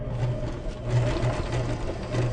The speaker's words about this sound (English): decided to check it out and to try and overcome his fear of sewing machines. Have a listen.